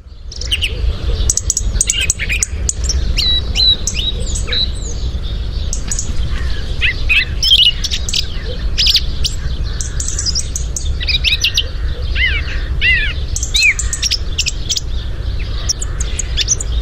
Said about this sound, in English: Now, that's the sound of a song thrush, and it's one of the first songbirds you'll hear at this time of year in Ireland.